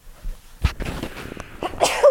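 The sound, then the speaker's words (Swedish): A person sneezes: a sharp, noisy burst of breath that breaks out of near silence, followed by a louder, breathy second burst at the end. “Jag tror att jag kanske ska nysa. Oj då.”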